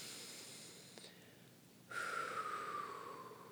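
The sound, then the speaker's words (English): A deep breath follows a quiet pause as a soft, airy rush of air swells up and holds for over a second. It is faint and breathy, with no clear talk. “Take a deep breath. Let it out. Good. 1 more deep breath.”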